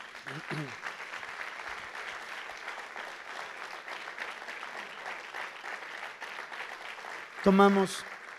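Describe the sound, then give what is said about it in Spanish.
Congregation applause at a church workshop gathering: steady, dense clapping sustained for about eight seconds with voices mixed in, swelling into a louder burst near the end. “Damos un aplauso al Señor.”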